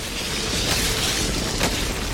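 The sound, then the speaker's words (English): A video-game cave-in: a loud, steady rumble with a dull boom that holds for about two seconds with no voices. “What was that noise, Shepard? Sounded bad. Cave in.”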